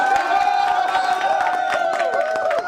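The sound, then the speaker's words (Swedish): Loud cheering from Liberal Party supporters at an election-night watch party at Cinco, with whoops, shouts and scattered claps in a dense, continuous burst. “Hallå, kan inte ni hurra som ni gjorde just? Ni var ju så glada.”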